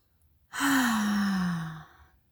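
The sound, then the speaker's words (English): A deep audible breath taken during a guided meditation practice: one long, loud, sigh-like exhale lasting over a second, carrying a low voiced tone that slowly falls in pitch, with no talk. “take a big breath in”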